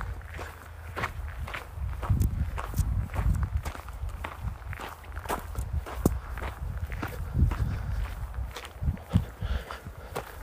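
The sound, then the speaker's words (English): Footsteps of a person walking at a brisk pace: many quick, steady steps in an even rhythm, moderately loud throughout. “One foot in front of the other. Kind of killing me because I'm walking more than my usual pace.”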